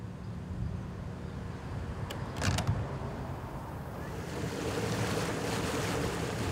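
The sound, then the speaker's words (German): Wooden creaks from a vegetable-carrying Ewer sailing boat reaching the harbour, with water washing and wind. A short cluster of clicks sounds near the middle, and the washing grows slightly louder toward the end. The whole clip is quiet, with no talk. “Der Gemüse-Ewer aus den 4 Landen hat inzwischen Hafengebiet erreicht.”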